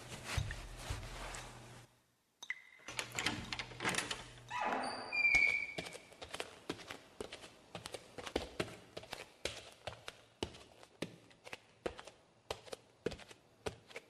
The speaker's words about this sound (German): So, den Ärmel unter die Tür durchschieben, mit dem Messer ein wenig im Schlüsselloch umstochern und voilà, da haben wir ihn.